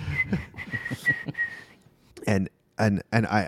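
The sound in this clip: A person whistles a few short, steady high notes over faint low sound, followed by bursts of talk.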